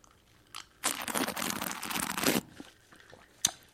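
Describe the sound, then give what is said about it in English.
Sipping a glass of ice water: a faint, dense crunching and crackling of ice lasting about a second and a half, with a soft tap before it and a sharp click afterward. “you take a sip of whatever beverage it is that you've got. So I've got some ice water.”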